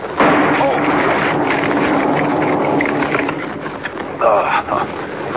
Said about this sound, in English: Wired that tree to a blasting charge. Blew up right in my face. Anybody else would have been shattered to bits. Good thing dynamite can't hurt me.